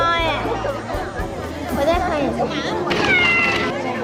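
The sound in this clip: Cat meows rise over crowd chatter and overlapping voices in an audience before a performance, the mewing calls repeating in a few high, wavering bursts.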